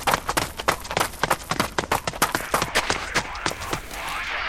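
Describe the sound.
People running away on foot: rapid running footsteps in a brisk, even patter of many sharp steps, loud at first and growing denser and slightly softer toward the end.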